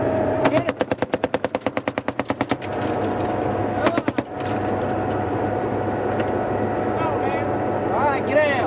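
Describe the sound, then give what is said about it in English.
A convoy gunner's machine gun fires among scrub and date palms on an American military patrol, first a long, rapid, loud burst of many shots, then a shorter burst, over a steady low vehicle rumble. “orders the gunner to fire. All right, go ahead. Give me 15 good ones right there.”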